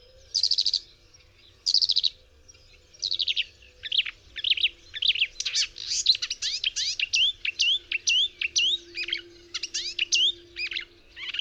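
A Eurasian skylark sings a long, lively series of high, rapid chirping phrases made of repeated trilled notes. The song grows busier and more continuous as it goes on.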